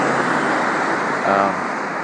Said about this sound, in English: there's the bus heading in the opposite direction.